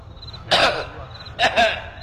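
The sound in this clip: Coughing by a person imitating how a German coughs: one short, harsh burst, a pause, then a quick double cough, each rough and breathy against a quiet background.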